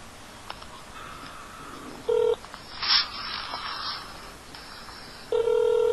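Telephone keypad tones dial an extension on a government ministry's automated phone line. A short tone burst is followed later by a longer one at the end, both over a steady line hiss.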